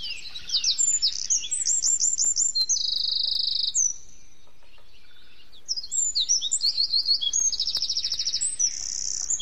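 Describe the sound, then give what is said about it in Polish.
Wren songs and calls: high, rapid, loud trilling phrases with sharp chipping notes, in two bursts separated by a brief pause. “Głosy strzyżyków naturalnie.”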